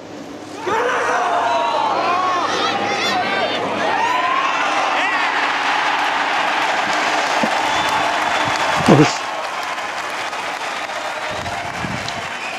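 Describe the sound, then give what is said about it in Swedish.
Crowd roars and applauds as Henrik Stenson sinks his final putt to win the 2016 British Open golf championship. A loud, sustained wall of cheering, whistles and clapping begins after a short moment and holds steady, with a brief louder swell near the end. “Vi kan klippa in ljudet från när Stenson sätter den sista putten.”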